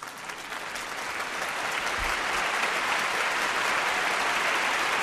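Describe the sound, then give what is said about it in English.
An audience applauds and cheers wildly, a dense, sustained wash of clapping that swells in the first second and then holds loud and even. “Fox Across America audience going wild.”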